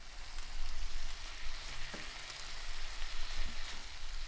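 Steady sizzling of spiced braised chicken being stirred in a pan with a little cooking liquid still left, a dense crackling hiss that stays fairly even throughout, with no voices.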